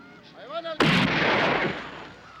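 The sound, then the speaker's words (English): A rifle shot rings out as a woman fires her daughter's saddle rifle at a snake: a single sudden loud crack that rolls into a long fading rumble. “The woman takes a rifle from her daughter's saddle and aims it.”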